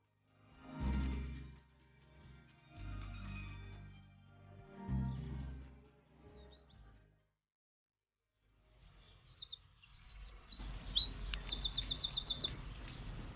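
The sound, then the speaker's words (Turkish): Birds chirp loudly in the morning, bright high tweets and quick trills repeating over several seconds. They follow a stretch of low, muffled tonal sound and a short silence. “Kuşlar nasıl da güçlü cıvıldıyorlar. Yaşam dolular.”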